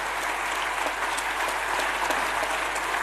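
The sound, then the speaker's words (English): Audience applause greets a decorated Olympian at a live gathering, an even, continuous wash of clapping lasting about three seconds with no talk over it. “Can we give a hand of applause?”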